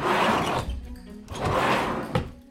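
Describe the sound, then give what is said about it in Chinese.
A cabinet drawer is pulled open in two loud, rolling, scraping slides, with a short thunk near the end. “拉开了柜子的抽屉”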